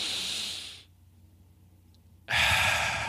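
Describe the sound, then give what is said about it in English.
Slow, airy breathing in a rhythmic breathing demonstration: a soft hissing breath, a near-silent pause, then a louder breath starting near the end. “So for example, you would inhale in,”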